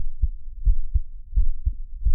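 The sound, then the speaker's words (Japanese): Heartbeat thumps in a rapid, regular rhythm, six deep low-pitched beats over about two seconds, each a soft paired thud, loud and alone with no talk. “心臓の音が聞こえる？”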